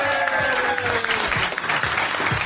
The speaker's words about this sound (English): How about a hand for our old buddy Pete?